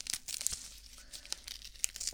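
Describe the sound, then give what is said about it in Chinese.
Medical adhesive tape of the kind stuck on after an injection is torn, giving faint, crinkly, crackling tearing bursts with a few sharper snaps, alone without talk. “打完针之后贴到你手上的胶带。对，现在用的都是这种胶带了，跟之前的不太一样”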